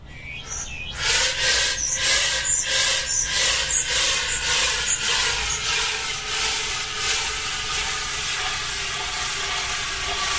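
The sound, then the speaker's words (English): Liquid nitrogen escapes from its tank with a loud, broad hiss. Rhythmic pulsing surges at first settle into a steady, rushing hiss with no voices. “It is actually the sound of liquid nitrogen escaping from its tank.”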